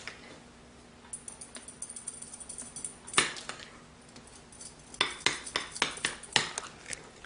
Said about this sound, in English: Just gonna mix that up so you have a nice blue, vibrant blue color there.